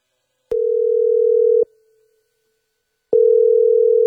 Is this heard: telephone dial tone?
yes